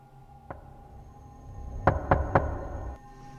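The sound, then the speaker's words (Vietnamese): Knocking on a door: a single knock, then a quick run of three sharp raps, fairly faint over a low steady hum. “Cô ta lại nín thở, tiếp tục gõ cửa.”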